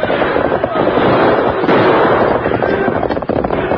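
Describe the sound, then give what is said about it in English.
Gunshots ring out as outlaws fire on a stagecoach in a holdup in an old radio western. A few loud cracks burst over a dense, roaring bed of noise. “Them shoot at stage, Kemosabe. Outlaws. They intend to hold up the stage”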